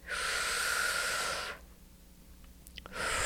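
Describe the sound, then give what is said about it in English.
A person takes a deep breath during a guided self-help exercise: a long, airy, hissing breath lasts about a second and a half, a quiet pause follows, then another breath begins at the end. “Take a breath.”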